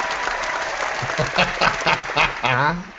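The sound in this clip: Audience applause: sustained, even clapping from a crowd, with people talking over it.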